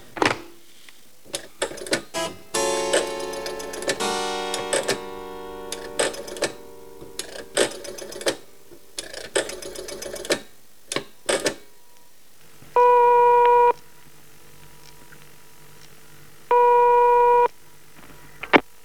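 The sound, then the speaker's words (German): A telephone number is dialed with a long run of irregular mechanical clicks and rattles, followed by two steady electronic ringing tones separated by a pause. “Entschuldigen Sie mich einen Augenblick, ich werde jetzt telefonieren.”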